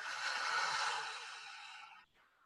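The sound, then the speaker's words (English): A slow deliberate breath, in through the nose and out through the mouth: one long, soft, airy hiss lasting about two seconds, then a faint trailing breath, quiet and with no talk. “Go ahead, inhale through the nose. Exhale out of the mouth, let it go.”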